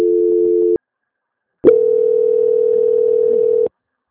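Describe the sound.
Steady telephone line tone plays while a call is put through a transfer. One short tone is followed by a pause and then a longer, unbroken tone at an even mid pitch. No voices are heard.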